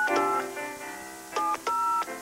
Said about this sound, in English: Thank you very much for the dialing music